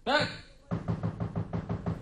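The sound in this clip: Knocking on a wooden door: a brisk, steady run of many firm raps following a short voice at the start.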